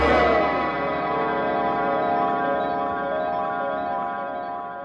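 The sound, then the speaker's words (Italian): An alarm clock's bell ringing as one sustained, bright metallic tone with rich overtones, beginning loud and slowly fading as it rings out. “La sveglia aveva appena finito di suonare.”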